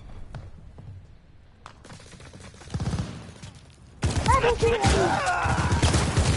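Video game gunfire during multiplayer play: scattered shots and thuds at first, then a loud, dense fusillade of rapid shots that starts abruptly and continues to the end.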